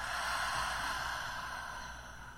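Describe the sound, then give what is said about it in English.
A slow, deep breath during a guided heart-centered breathing exercise: a long, soft, airy rush of air that holds steady and then gently tapers off, alone and quiet. “and exhale. Inhale and exhale.”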